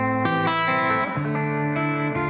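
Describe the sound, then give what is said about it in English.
Sustained distorted instrument tones through a distortion effect, buzzing with dense harmonics and shifting in pitch a few times while staying loud and steady. “gets more distorted. So I kind of have a smooth palette of distortion sounds from your clean”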